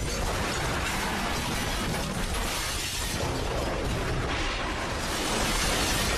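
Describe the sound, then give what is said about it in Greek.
A badminton hall roof collapses onto the court during a magnitude 6.9 earthquake in Taiwan, making a dense, loud, continuous crashing roar with rattling debris that holds steady throughout, without voices. “Η οροφή γηπέδου μπάδμιτον πέφτει και καταπλακώνει το τερέν.”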